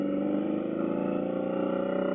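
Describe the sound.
Deep, steady rumble of a motorcycle engine running without baffles, a continuous low-pitched drone that holds even and loud throughout with no clear revving.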